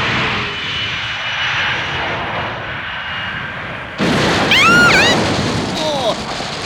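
A cartoon aircraft engine roars as the craft comes in to land, a broad, steady drone that turns abruptly louder partway through, where sweeping whistle-like tones join in.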